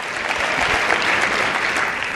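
An audience applauding, dense and steady clapping from many hands that stays loud and even throughout, without voices over it.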